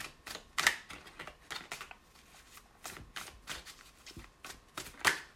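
Tarot cards are shuffled and drawn as a run of soft rustles and crisp snaps, with many quick card flicks and two sharper slaps standing out.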